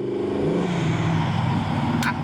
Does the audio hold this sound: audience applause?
no